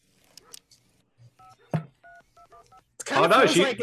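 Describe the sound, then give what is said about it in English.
Touch-tone telephone keypad being dialed to call someone: a quick run of short, even beeps with a brief thud midway, followed by a burst of louder, noisy sound right after the dialing. “She's ringing the cops.”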